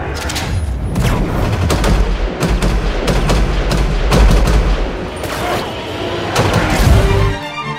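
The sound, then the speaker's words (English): Gunfire from an action film trailer, heard as many loud rapid shots and heavy booming blasts in dense bursts that continue almost without pause, ending abruptly. “He just shot a lot of people.”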